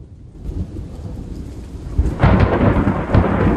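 Thunder rolls through a nighttime storm with lightning flashing over trees, a deep rumble over steady rain hiss that swells into a heavier, louder roll partway through, with no voices.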